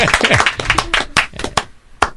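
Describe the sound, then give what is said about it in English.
Hands clapping in a short, uneven burst of applause, sharp slaps bunched at first then thinning into a few separate louder claps, with no voices over them. “I gotta give a round of applause for those smart”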